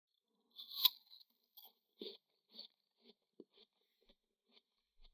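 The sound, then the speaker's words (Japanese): Someone eating an apple: one crisp, loud bite, then many quieter crunches and chewing snaps spaced out over several seconds, soft and without talk. “そうそう、頂戴したリンゴを私もいただきましょう。”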